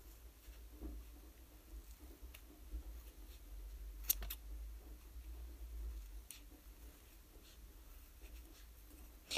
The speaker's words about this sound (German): daraus schneide ich dann so ein Herz. Also du schneidest da jetzt einfach so ein Herz raus.